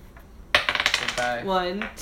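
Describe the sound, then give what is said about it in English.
A six-sided die being rolled, with a short burst of hard, rattling clicks as it tumbles across a surface and settles. “And we're going to roll a d6 to see who gets cut from the show.”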